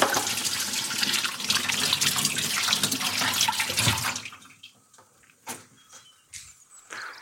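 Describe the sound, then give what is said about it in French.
Water runs steadily from a tap as hands are washed during cake preparation, a full, hissing flow that lasts about four seconds, then cuts off abruptly, followed by a few faint knocks and clatters. “Je me lave les mains. Toujours.”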